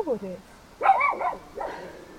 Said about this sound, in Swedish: nu vet alla att det är en hund som skäller